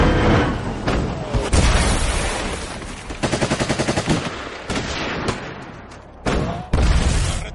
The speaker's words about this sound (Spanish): El soviético corre tras él y le dispara.